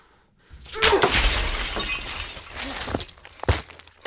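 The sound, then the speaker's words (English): Something shatters into shards with a loud crashing burst, followed by a long spill of scattering, tinkling debris and then another sharp hit near the end. “The shards Junie shattered rise again, surrounding Xander this time.”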